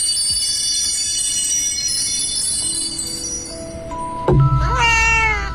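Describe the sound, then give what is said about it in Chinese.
Cats meowing in a sleep app soundscape: a steady soft ambient bed with sustained tonal lines, then a few drawn-out meows near the end, with no talk. “云梦境，这是一个关于猫咪的梦。你会在一群猫咪的陪伴下，伴随着它们的呼吸，和它们一起渐渐睡着”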